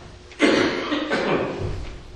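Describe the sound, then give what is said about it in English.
A harsh, sudden cough from a person with allergies, breaking out abruptly after a quiet moment and trailing off into a rough, breathy rasp. “Sorry about my cough. It's still allergies.”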